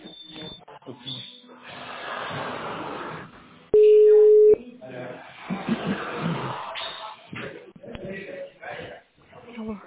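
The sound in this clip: A single brief, steady telephone tone plays while a call is being transferred. It cuts in loudly between stretches of talk on a narrow, phone-quality line.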